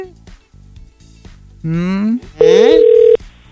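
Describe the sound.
Telephone call tones as a contest prize call is placed: a rising electronic sweep, then a loud, steady tone lasting under a second, over a low background.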